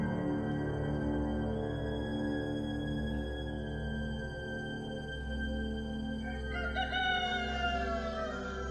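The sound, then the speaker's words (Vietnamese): Roosters crow before dawn in a village, a few long, drawn-out calls rising over a steady low hum, the clearest crow near the end. “Gần 4 giờ sáng, tiếng gà gáy khắp các ngõ ngách trong làng đoại.”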